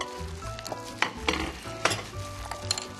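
Minced garlic sizzles in a frying pan, a steady crackling hiss broken by a few sharp clacks and scrapes of a utensil stirring, with no voices.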